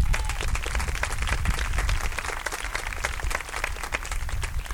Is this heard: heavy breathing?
no